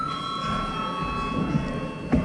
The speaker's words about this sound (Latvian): Lūdzu zvanu.